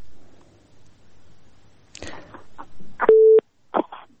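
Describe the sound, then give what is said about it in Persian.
A telephone busy tone after a caller's line dropped: one steady, loud electronic beep that stops abruptly, surrounded by a few brief, scattered noises. “بله تماسی شنونده ما قطع شد و میریم به تماس دیگه شنونده ما.”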